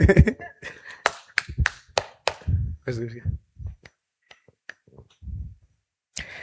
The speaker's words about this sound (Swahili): Ah, mbona piga basi makofi tusikie.